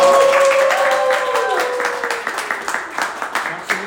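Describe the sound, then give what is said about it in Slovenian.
An audience applauds after a harmonica concert at the state library in Malmö. A sustained tone fades at first, then the sound settles into a moderately loud spread of many individual claps. “så en extra applåd till honom. Bravo!”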